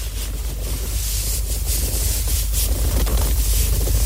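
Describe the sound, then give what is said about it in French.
Light rubbing of potato starch close to a microphone gives a continuous, dense, gritty hiss with a few slightly louder swells, steady throughout. “Un frottement léger. Avec la fécule de pomme.”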